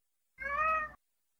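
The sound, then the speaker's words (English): A cat gives a single meow, a clear, tonal cry lasting about half a second at a steady pitch, alone against silence. “No, that's a cat.”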